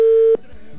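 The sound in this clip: Ringback tone of an outgoing telephone call: one steady, clear electronic tone at a single pitch that holds for about a third of a second, then cuts off, leaving faint hum.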